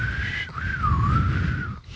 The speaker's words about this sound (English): Some people really wheeze it up, man. I know people that just howl and whistle when it goes. Yeah. It just like goes...